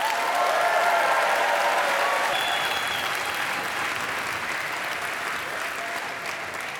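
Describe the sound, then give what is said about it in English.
An audience applauds warmly to welcome Francis Ford Coppola at a San Francisco event, a dense, continuous clapping that tapers off slightly toward the end. “Please give a warm San Francisco welcome to Francis Ford Coppola.”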